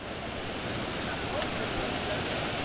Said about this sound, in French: C'est la fontaine de Trevi à Rome.